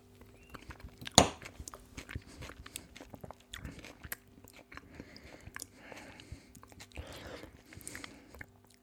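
Chewing a first bite of food: one sharp crunch early on, then many quieter, irregular munching and biting sounds.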